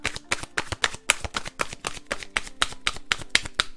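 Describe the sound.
A deck of divination cards is handled and shuffled, producing a quick, even run of crisp papery flicks and taps, many in a steady rhythm with no voices.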